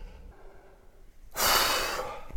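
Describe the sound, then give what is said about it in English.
A person catches their breath after physical exertion. Faint breathing leads into one loud, rushing exhale that trails off, with a small huff at the end. “Oh, my abdomen hurts.”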